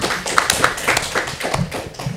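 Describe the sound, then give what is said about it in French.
Scattered handclaps from an audience at a French talk, a handful of sharp, irregular claps rather than full applause, each distinct and fairly loud with small gaps between them. “Allez, on applaudit.”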